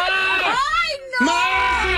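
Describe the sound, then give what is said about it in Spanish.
A goat bleats in two long, loud, wavering cries separated by a brief pause, each rich and harmonic with a shaky, quavering pitch. “¡Qué chiva tan lépera! Vámonos saliendo ya de una vez. Desgraciada esa chiva lépera.”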